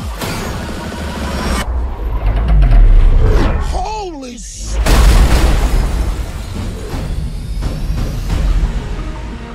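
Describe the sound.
Bombs dropping and exploding as a film sound effect: a heavy, rumbling blast swells, a falling whistle follows, and a second deep explosion booms before the noise trails into a lingering roar.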